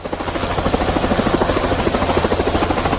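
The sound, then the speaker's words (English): A helicopter ferrying people out of flood-prone areas around Bangula in Nsanje, heard as a loud, rapid, steady rotor chop with a constant engine whine throughout. “As you can hear in the background, that is the sound of a helicopter, which is ferrying people from the flood-prone areas, and one of them is Bangula here in Nsanje”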